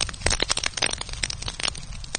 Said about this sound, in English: Dry grasses flare up, snapping and crackling as orange flames consume the prairie.